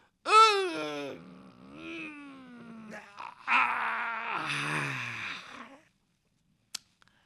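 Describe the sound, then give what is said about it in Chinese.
A voice imitates someone waking, stretching and yawning: a long drawn-out groaning sound falling in pitch, then breathy, strained yawn-like noises, followed by silence and a brief sharp tap near the end. “那位在那屋里边醒了，听见伸了个懒腰，打了个哈欠”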